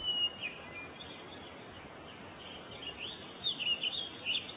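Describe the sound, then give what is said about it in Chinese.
Faint chirping from a small injured bird: a few short, high tweets scattered over a quiet hiss, most of them clustered toward the end. “是一只小鸟。”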